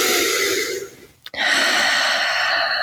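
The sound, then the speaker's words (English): Slow breathing during a relaxing exercise cool-down: a long, airy breath in, a brief break, then a steady breath out, loud and close. “And we're just going to take a few breaths in here. Nice breaths in and out.”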